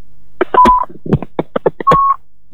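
Telephone keypad tones as a call is placed to a caller, a rapid run of many short dialing beeps with two longer steady tones among them. The beeps are clear and sound alone, with no talk.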